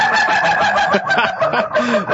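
A rooster crows loudly and continuously across the short clip, a harsh, strained call with wavering pitch.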